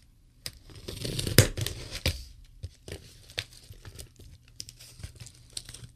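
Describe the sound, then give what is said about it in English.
Tearing and crinkling as a package is ripped open, with a few sharp rips and scattered crackles of paper or plastic between quieter gaps, fairly faint and without talk. “Opening packages on the radio. That's what all the good paranormal shows do.”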